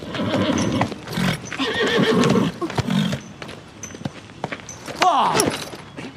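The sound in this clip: A horse neighs in a loud, shrill whinny whose pitch slides downward near the end, preceded by snorts and heavy hoof thumps.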